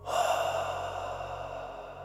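A slow, quiet inhale during a guided breathing exercise: a soft, airy rush of breath drawn in steadily for about two seconds, with no talking.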